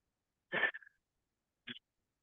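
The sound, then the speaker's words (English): A voice imitates deep, heavy breathing in two breath sounds: a longer, rough breath followed by a short one, with silence around them. “I started like taking deep breaths, like,”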